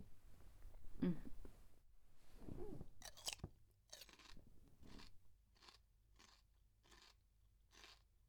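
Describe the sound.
Someone chews crunchy food: faint, crisp crunches and bites that settle into a regular, evenly spaced chewing rhythm and repeat many times.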